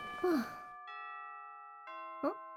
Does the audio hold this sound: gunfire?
no

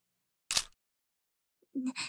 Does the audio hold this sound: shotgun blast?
no

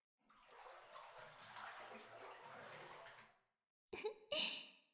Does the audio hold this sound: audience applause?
no

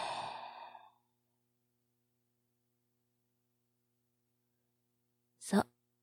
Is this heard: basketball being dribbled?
no

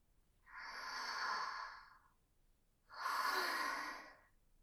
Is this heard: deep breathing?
yes

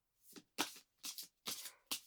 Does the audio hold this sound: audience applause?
no

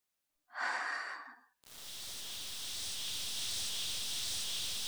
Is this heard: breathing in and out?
yes

